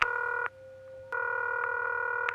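A telephone call connects after a number is dialed, producing a steady, buzzing electronic line tone that breaks off briefly and then resumes. Faint clicks mark the changes, and no voices are heard.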